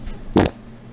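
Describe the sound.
A single short, low fart, a loud, brief, buzzy burst of about a tenth of a second, preceded by a faint puff.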